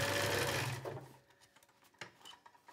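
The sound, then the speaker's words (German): A sewing machine stitches a second seam right beside the first on a pair of trousers, a steady whirring run that fades away after about a second, leaving faint scattered clicks. “und jetzt hier direkt neben der ersten Naht noch eine zweite Naht gemacht. Denn dadurch wird unsere Hose insgesamt noch stabiler.”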